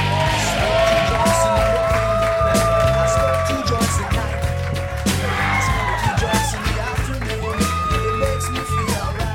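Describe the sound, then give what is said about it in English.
Live audience applause and cheering welcome guests, with dense clapping mixed with whoops, shouts and screams. The sound stays loud and sustained throughout. “Put your hands together, everybody, yeah.”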